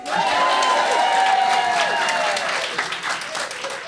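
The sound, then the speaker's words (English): Live audience applause at a recorded live show: a dense, steady wash of clapping that holds at full strength, then thins slightly and fades a little toward the end. “Just so you hear it again, there's that live audience again.”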